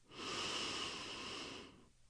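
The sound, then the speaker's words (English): A single deep breath drawn in as a relaxation exercise begins, a long, airy, steady inhale lasting well over a second before it fades to quiet. “take a deep breath in”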